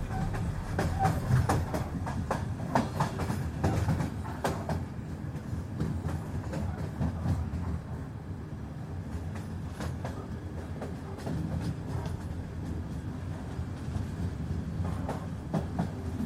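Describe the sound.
A train rolls steadily along the rails, its wheels clicking and clacking in a continuous rhythm under a low rumble that holds throughout.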